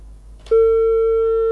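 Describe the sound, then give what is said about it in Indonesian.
Telephone busy signal after a call is cut off: a brief click, then one loud, steady electronic tone held to the end, with no talk. “Terputus ya.”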